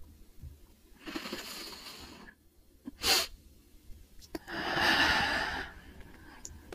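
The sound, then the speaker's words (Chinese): A breathing technique with a double deep inhalation: a long breath, then a very brief second breath, followed later by another long, airy breath. Each breath is a soft, breathy rush with no talking. “但不管多短，我们还是尝试再进行一下吸气。整体的操作看起来大概是这样。”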